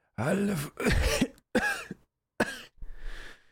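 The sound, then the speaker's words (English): A person coughing up blood: a few harsh, throaty coughs in quick succession with short gaps between them, ending in a breathy, rasping exhale. “as he coughs up and puts his hand to his mouth, and you see he comes away with a little bit of blood”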